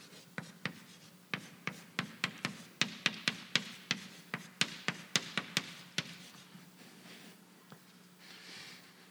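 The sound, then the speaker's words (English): Writing on a board: many quick, sharp strokes and taps in an irregular rhythm, clear against a quiet background and thinning out toward the end, with no talk. “Write it over here.”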